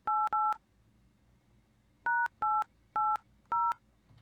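Touch tones sound as a telephone number is dialled. Two quick beeps come first, then a pause, then four more evenly spaced beeps, all crisp and alone over faint background hiss.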